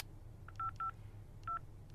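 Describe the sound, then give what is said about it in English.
Touch-tone beeps as a telephone number is dialed: a few short, evenly pitched electronic tones in an irregular sequence, faint over a low steady hum. No voices. “I dialed a number, and when he answered, I jumped right in.”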